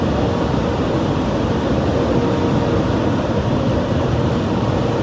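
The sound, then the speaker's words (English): A car wash runs while a Range Rover drives through it, making a loud, unbroken rushing roar of spraying water and machinery that stays steady for the whole stretch, with no voices. “Look at me going through the car wash. Just riding on through, baby. Riding on through.”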